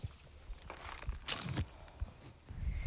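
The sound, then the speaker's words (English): Footsteps walking through a gate into a large, secure garden: a few soft, uneven crunching steps, with a longer, louder rustling burst midway, quiet and with no talk. “Let's go through the gate now into the Badger's Garden, which is a large, secure garden.”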